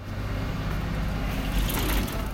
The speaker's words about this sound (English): On a sunny day in downtown Winston-Salem, the morning rush at the city's main bus terminal is over. Passengers form short lines, drivers meander in and out with partially filled cabins